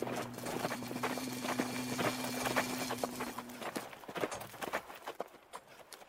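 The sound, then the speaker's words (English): Horse hooves clip-clopping as a rider arrives outside, a run of sharp hoof strikes over a low hum that thin out into sparser, separate knocks toward the end. “Somebody just rode up outside. Did you hear?”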